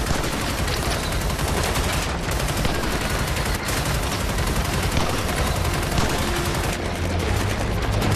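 Machine gun fire in a battle: dense, continuous crackling bursts of gunfire fill the whole clip at a loud, steady level with no pauses.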